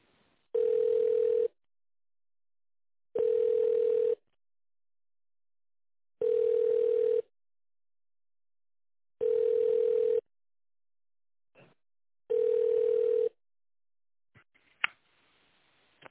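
A telephone ringback tone plays while a call is transferred. Five even beeps at one steady pitch come at regular intervals with silent gaps, followed by a few soft clicks.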